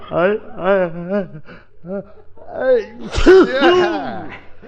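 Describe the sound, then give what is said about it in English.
A man sneezes through a run of drawn-out, voiced gasps and wheezy whimpers, building to a louder, breathy burst near the end. “You're sneezing good, Curly.”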